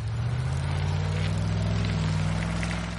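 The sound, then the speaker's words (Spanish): Car engine rumble as a car drives off down a street, a low, steady drone with a light noisy hiss above it, holding at an even level. “El coche también se aleja.”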